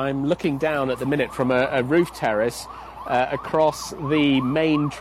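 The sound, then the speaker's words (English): An ambulance siren wails as the vehicle goes round a large roundabout in a busy city transport hub in Madrid, heard beneath a voice talking steadily throughout. “You may hear that's the sound of an ambulance just going round this big roundabout in front of me.”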